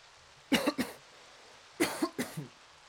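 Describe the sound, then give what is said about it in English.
Two short coughing fits, each a quick run of harsh, breathy bursts, heard alone against a quiet background. “told you that cough was coming.”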